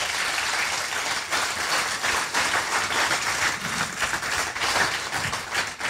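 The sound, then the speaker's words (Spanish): A church audience applauds during a bilingual service with loud, continuous clapping. Sharper individual claps stand out from the wash at uneven moments, and no one speaks over it. “Vamos. Come on. Dale un aplauso.”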